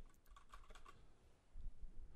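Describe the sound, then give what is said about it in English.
Soft computer-keyboard typing as a report is written up, a quick run of light key clicks followed by quieter tapping, faint throughout with no speech. “Do you mind if I type up a report on what you're about to tell me?”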